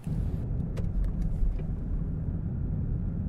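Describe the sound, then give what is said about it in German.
A sheriff's patrol car drives on patrol through the small coal-mining towns of McDowell, USA, giving a steady low engine rumble and road noise, with a few faint clicks near the start. “Er ist immer noch auf Streife. Der Sheriff fährt nach Gary, eine von 20 Kleinstädten und Siedlungsgebieten, aus denen McDowell besteht.”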